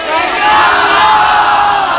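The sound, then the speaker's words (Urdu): Crowd at an Islamic religious gathering chanting "Inshallah" in unison, one loud, sustained shout of many voices lasting about two seconds. “ایسے نہیں، ایسا زوردار انشاءاللہ کا نعرہ لگائیے”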